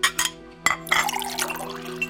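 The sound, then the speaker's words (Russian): Tea poured into a glass: a few light glassy clinks, then a steady trickling pour that runs to the end. “Наливайте себе чаю”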